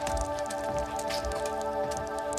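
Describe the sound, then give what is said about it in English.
Water leaking and dripping down a wall indoors, a soft, irregular patter of drops over a steady background hum. “Come take a look at this. We've got a leak.”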